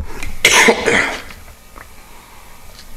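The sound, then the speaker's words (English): A man coughs harshly after swallowing water down the wrong pipe, a couple of loud, rough bursts in the first second followed by near silence. “I think he's getting choked up. Did you swallow your water down the wrong pipe there, brother?”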